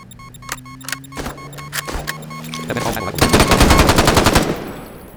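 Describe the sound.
Video game gunfire with a revolver among the weapons: several separate sharp cracks over a steady low hum, then a dense rapid burst of shots that tails off.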